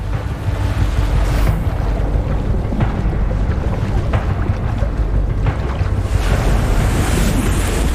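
Ocean waves and tidal surf roll in as a loud, continuous roar mixed with wind noise, steady throughout with no voices.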